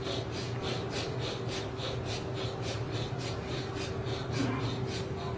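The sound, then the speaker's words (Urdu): Rapid, forceful breathing during a breath-remembrance (dhikr) meditation done with eyes and mouth closed, many quick, even breaths pulsing in a steady rhythm throughout. “تو طریقہ یہ ہے کہ زبان بند، آنکھیں بند، سانس کے ذکر، اب لاؤ خوب سانس کی،”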